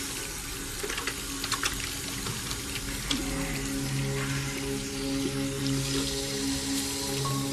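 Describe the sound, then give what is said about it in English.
Water runs from bathroom sink taps as a man washes his hands with soap, a steady rushing flow that holds at an even level throughout, with no voices. “He turns on the taps, squirts some soap onto his hands, and washes them thoroughly.”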